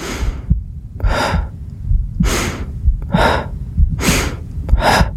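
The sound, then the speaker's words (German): Breathing exercise with five strong, airy breaths at a slow, even pace, each a short rush of air, over a low throbbing rumble between them. “Ich fing an, Atmen zu üben.”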